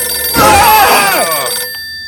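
A telephone rings once in a long, warbling electronic trill lasting about a second and a half, loud and alone, before cutting off into quiet.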